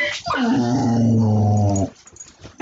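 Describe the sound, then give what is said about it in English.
A dog growls in a loud, sustained, rough rumble for under two seconds, then trails off into softer, fainter whimpering sounds. “That was my dog.”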